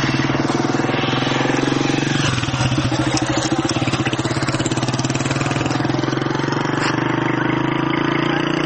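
Steady engine drone of ordinary light cars, not Humvees, driving along a newly opened road between Chanjir and Babaji toward an operations area, the loud rumble continuing unbroken throughout with no voices.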